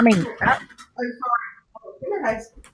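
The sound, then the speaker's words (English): A dog whimpering in a few high, wavering whines broken by short pauses, fairly clear and alone. “Okay, I'm going to have to let Hazel out of this room because she's whimpering at me.”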